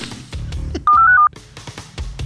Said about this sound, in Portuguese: Pedi para ligar para ele aqui, vamos ver.